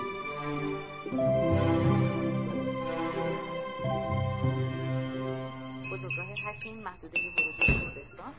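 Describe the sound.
Sharp glass clinks from a jam jar as someone struggles to open its lid, a quick, irregular run of knocks and rattles over the last couple of seconds, following sustained tonal music.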